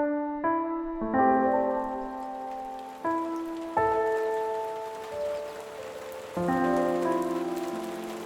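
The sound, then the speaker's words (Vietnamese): Heavy rain pouring outside a window late at night, a steady soft hiss running throughout beneath slow, sustained piano-like notes that enter one after another. “Trời khuya, phía bên ngoài cửa sổ, trời đổ mưa như trút nước.”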